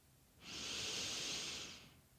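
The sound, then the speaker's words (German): A deep inhale taken for a belly-breathing exercise, one smooth airy rush of about a second and a half that swells in and fades out alone against quiet. “Die Idee ist, dass ihr einmal ganz tief einatmet”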